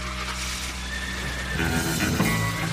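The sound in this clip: A horse neighing in one sustained, wavering whinny that grows louder and fuller partway through.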